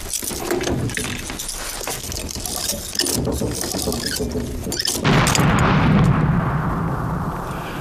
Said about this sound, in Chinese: 谁家锅炉炸了？